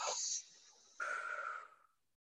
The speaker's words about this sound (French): je vais t'inviter à faire euh, une grande inspiration et une grande expiration en relâchant bien.